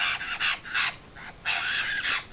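Harsh, raspy crow-like calls from a chatty, social bird come as several short bursts followed by a longer, drawn-out call, all fairly faint with no talk.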